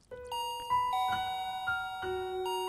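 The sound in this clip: A gate bell rings with a short electronic chime melody, a sequence of several clear, sustained tones at shifting pitches, fairly soft and heard alone with no voices.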